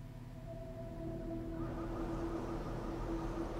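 Deep engine-like rumble from a mobile shooter game trailer: a steady low drone with sustained humming tones above it. About a second and a half in, a louder, hissing layer of noise swells in and holds. No one speaks.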